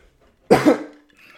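A single sharp cough from someone with something stuck in the throat, a loud double-pulsed hack that rasps briefly and then trails off into quiet.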